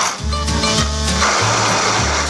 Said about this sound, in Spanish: Un poquito por ahí en la copa hasta que emulsione la mayonesa. Sigue batiendo